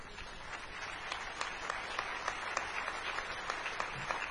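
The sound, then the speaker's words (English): Audience applause at a presentation for volunteers who ran a dunk tank. Faint, steady clapping runs throughout, with individual sharp claps standing out. “I'd like the guys and the gals who came out and helped me run the dunk tank this year, please stand up and take a round of applause.”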